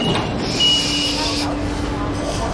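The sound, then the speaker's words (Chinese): A bus door opens at a stop with a steady airy pneumatic hiss that cuts off after about a second and a half. A low vehicle rumble runs under it and continues afterward. “河边到了，右侧车门打开前，请不要触碰车门。”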